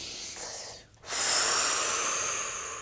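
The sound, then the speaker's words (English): A person taking a deep breath. A soft airy hiss breaks off briefly, then a long, strong rush of breath follows and slowly eases over nearly two seconds. “Okay, take a deep breath.”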